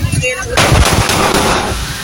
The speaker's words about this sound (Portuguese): Pronto, tá aí o momento do disparo.